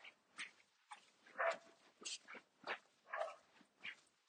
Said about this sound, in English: you can hear that dog barking.